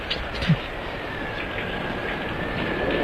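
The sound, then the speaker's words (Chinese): A car engine rumbles in a steady low drone as the vehicle turns around in foul weather, growing slightly louder toward the end. “咱们下车。 嗯， 汽车掉头。”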